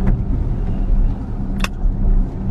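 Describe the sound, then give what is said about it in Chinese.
An Audi Q7's 3.0T V6 engine pulls in S mode with a deep, steady drone that stays low and even, broken only by a couple of brief high ticks. “S 档还是不错的啊，这毕竟是一台百万级别的奥迪 3.0T V6 的发动机啊，你挂上 S 档还是不错的。”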